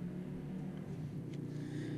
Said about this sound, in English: Waiting for the bike to go by. Yep. There goes the bike.